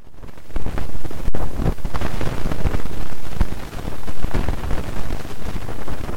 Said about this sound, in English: one of these satellites that's parked out there in space just gathering up particle data from the solar wind. The first one is where kind of nothing is happening, standard sort of the breeze from the sun when nothing in particular is going on.